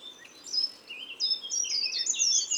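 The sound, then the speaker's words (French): A short-toed treecreeper sings thin, very high-pitched phrases, repeating the same brief run of notes a few times at a moderate volume above a faint hiss. “Il y a un grimpereau des jardins qui s'approche. C'est cette phrase très aiguë, toujours pareille,”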